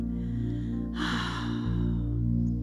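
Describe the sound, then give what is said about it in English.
A deep breath during a guided relaxation, heard as one airy whoosh of under a second over a steady, sustained musical drone, with no talking. “Take some deep breaths in and some deep breaths out.”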